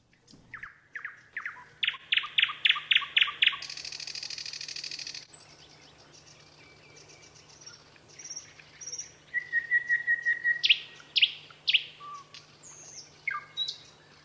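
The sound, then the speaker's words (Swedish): A nightingale sings in varied phrases: bursts of rapid repeated notes, a buzzy rattling passage, clear whistles and a fast trill, separated by short pauses over a faint, steady low hum. “Och nu kommer ni att få höra hur en nektergal låter.”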